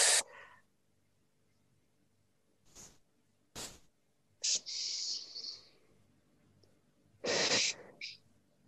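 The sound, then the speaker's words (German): Deep breathing during a dance warm-up: a few airy, hissing breaths through the mouth, some fuller and longer, others short and faint, separated by quiet pauses. “atme erstmal ganz, ganz tief ein und wieder aus durch den Mund”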